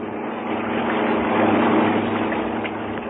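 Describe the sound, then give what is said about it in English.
A propeller aircraft engine drones steadily as the plane lands and taxis toward the landing place for a native dugout. The low, continuous hum swells slightly in the middle and stays alone without voices. “Nicely done, Gale. Now let's taxi up there to what appears to be the landing place for the native dugout.”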